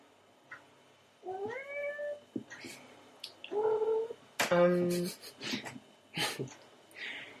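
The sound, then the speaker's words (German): A small cat meows a few times in drawn-out, clear calls, some rising then falling in pitch, with brief rustling and breathy noises between the calls. “Die kleine Katze ist da und macht Theater.”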